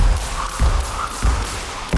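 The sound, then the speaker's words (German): Rope skipping jumps during training at a rope skipping club in Brandenburg an der Havel, landing as a few dull, low thumps at a steady, even pace. “Die nennt sich Ropeskipping und in Brandenburg an der Havel gibt es sogar einen Ropeskipping-Verein mit mehr als 100 Mitgliedern.”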